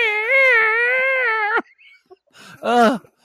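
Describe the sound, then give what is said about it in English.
A cat meows loudly: first one long, steady, drawn-out cry, then after a short pause a second, shorter meow. “Even though I hate animals, tell your cat I said thank you very much for soundtracking.”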